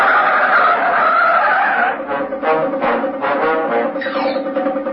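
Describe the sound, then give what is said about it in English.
Tires of a speeding taxi skid loudly as it swerves violently, a sustained high squeal that turns into pulsing, wavering screeches. “The speeding taxi careers along South Union Street and swerves violently into Warmer Road.”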